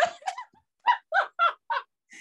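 A bird calling in harsh, caw-like cries: a few quick calls at first, then four loud calls evenly spaced in a steady rhythm, ending with a fainter one.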